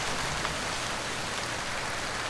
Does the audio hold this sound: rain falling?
yes